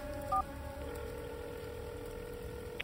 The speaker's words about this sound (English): I take a drink and dial Todd's number instead.